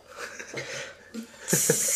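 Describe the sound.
A beer is opened, giving a sudden bright fizzing hiss that holds to the end after a stretch of quiet talk and breathing.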